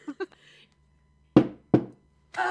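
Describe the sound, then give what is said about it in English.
A shot glass slammed down on a table gives two sharp, loud knocks in quick succession, with brief voices just before and after. “You throw it back, and she's gonna, like, demonstrate, take the shot, and then slam the glass down on the table.”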